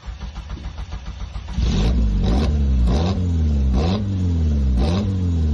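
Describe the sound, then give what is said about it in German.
A sporty car's engine idles, then jumps into a loud, sustained roar with several repeated revs, each one swelling up in pitch and dropping back. “Und heute haben wir ein ganz besonderes Highlight, ein Fahrzeug, auf das ich mich schon lange gefreut habe. Und wir hören, glaube ich, mal kurz den Sound.”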